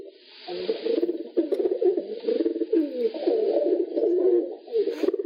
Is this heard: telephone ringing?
no